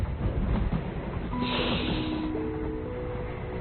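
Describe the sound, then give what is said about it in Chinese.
A train runs over railway tracks with a steady, loud, low rumble. Faint sustained tonal squeals run through it, and there is no clear clickety-clack rhythm. “我总梦见火车从铁轨上驶过的声响”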